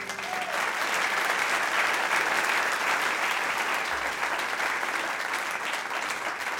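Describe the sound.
An audience applauds to welcome a guest, a dense, even wash of clapping that stays at a sustained, lively level throughout.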